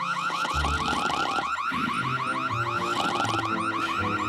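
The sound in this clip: An electronic alarm goes off, a loud warbling wail that cycles rapidly and repeats without pause, with lower steady tones running beneath it.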